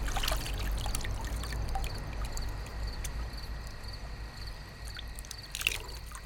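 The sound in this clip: Water pours and splashes as someone washes up, a steady hiss of running, trickling water over a low rumble, continuing without a break and with a slight burst near the end.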